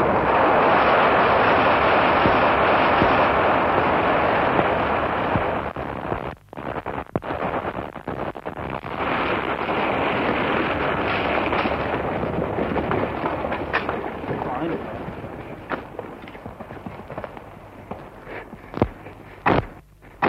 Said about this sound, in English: we've had to wait rather longer than we anticipated for the blowing up of this part of the road, because they had to wait till the last of the Greek artillery got through.